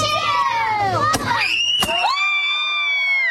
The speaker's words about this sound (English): Oh no, the blast of blue powder hits Dad right where the sun don't shine. Down Dad goes.